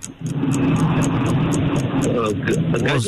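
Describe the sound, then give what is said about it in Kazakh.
Steady low engine rumble and road drone inside a moving GAZelle van, continuous for the whole stretch, with a fast, regular high-pitched pulsing riding above it. “Ненің шуы мынау? Жаптым, жаптым. Ненің шуы? Көлікте келатын, көлікте келатын.”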